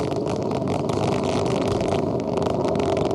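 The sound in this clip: A rocket launch at Kourou gives a continuous, dense, rumbling roar that stays steady and unbroken for the whole stretch.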